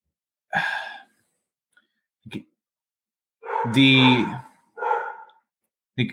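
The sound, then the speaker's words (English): A stressed pet dog giving a few short, strained barks and whining yelps, loud harmonic bursts separated by stretches of silence, the longest and fullest one coming near the middle. “you can hear George again. He's stressed again. My dog.”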